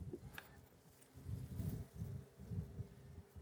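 Honeybee colony buzzing during a spring hive inspection, a low, steady droning hum that swells and recedes in a few soft waves, mixed with light rustling.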